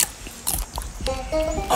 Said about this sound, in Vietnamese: Sau hôm đó, khi bố mẹ chàng đã ra ngoài làm việc, Aenys đi ra đồng và cắt một miếng bí ngô rồi cắn một miếng.